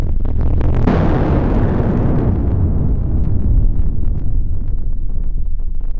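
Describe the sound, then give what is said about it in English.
A sped-up barograph recording of an atmospheric shock wave, heard as a loud, unbroken roaring rumble with a sharp burst near the start, then dense turbulent noise that thins slowly. “The atmospheric shock wave recorded by these barographs lasted for 5 days. If you sped the recording up, it might have sounded like this.”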